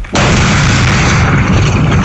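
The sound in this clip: Controlled detonation of dozens of explosives set to destroy a criminal groups' training site. After a brief quiet start, a sudden, heavy blast turns into a loud, sustained roar with deep rumbling that holds steady for about two seconds.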